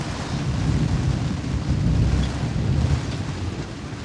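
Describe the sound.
Heavy rain and wind sweep an empty road at night: a steady, dense roar with a deep low rumble that holds at one level throughout, no voices.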